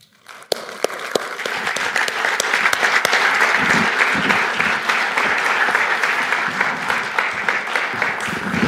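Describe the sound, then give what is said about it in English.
A church audience at Friend Church applauds to welcome a rabbi: a few sharp, separate claps break the quiet, then the clapping swells into loud, sustained applause that carries on to the end. “So with that, I want us to give us a warm Friend Church welcome to Rabbi Glickman.”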